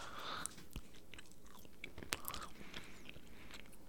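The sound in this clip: Faint chewing and biting of a tough, chewy candy, with a few sharp crunchy clicks scattered over soft, continuous mouth noise.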